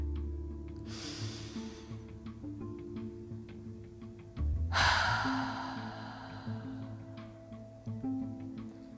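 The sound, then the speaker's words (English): A person's deep breath, a soft airy inhale followed a few seconds later by a louder, longer exhale, over a quiet low steady hum with no talk. “Before we get started, let's all just take a deep breath.”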